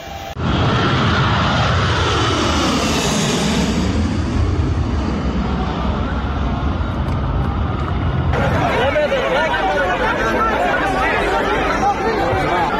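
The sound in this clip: An airplane engine running loudly at an airport, with a crowd gathered under the wings and near the engine: a steady, dense roar with a whining tone that sweeps down and back up, and crowd chatter mixed in.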